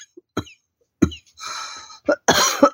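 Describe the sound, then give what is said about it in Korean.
A person coughing several times, harsh irregular bursts with a longer rasping stretch in the middle, loud and with no talking. “천천히 기침 다 하고 됐는겨”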